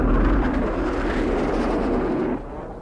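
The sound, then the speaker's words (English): Roaring blast of an International Rescue aircraft landing vertically: a dense, continuous rushing roar that drops abruptly to a quieter level near the end. “Will not require runway. Coming in vertically.”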